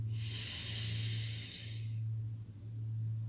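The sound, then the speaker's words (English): A slow, deep belly breath during a guided breathing exercise: a soft, airy inhalation lasting about a second and a half over a low steady hum, followed by quiet. “Three times more. Take a deep belly breath in.”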